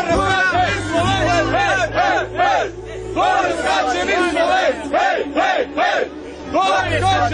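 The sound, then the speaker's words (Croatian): Loud rhythmic chanting from a group of Slovenian fans among a large crowd at the Mostar bridge diving event. Repeated shouted bursts rise and fall many times over a steady crowd roar. “Pored nekoliko hiljada domaćih gledalaca, posebno se isticala grupica navijača iz Slovenije koji su glasno bodrili svoje ljubimce.”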